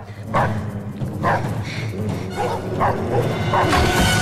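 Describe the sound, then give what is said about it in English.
Frenzied dogs bark and snarl at the feet of a woman hanging from a rafter in a film scene, with a series of loud, sharp barks over a continuous growling rumble. “She loses her footing, hanging from a rafter. The dogs snarl at her feet.”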